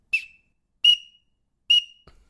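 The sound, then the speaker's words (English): Three short, high whistle notes from a blown duck call imitating the call of a male green-winged teal, evenly spaced and sharp, each ending quickly, followed by a faint click. “That's what a teal sounds like. Green wing, male, blue wing, do not make that noise. Just green wing teal.”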